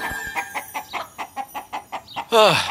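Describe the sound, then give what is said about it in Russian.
Frightened chickens clucking in a house, a large flock, with a rapid, evenly spaced run of short clucks that ends in one louder, drawn-out squawk. “И вдруг из горшка одна за одной выскочили сотни перепуганных кур. Птицы заполонили весь дом Рамы. Куда ни глянь, повсюду были куры.”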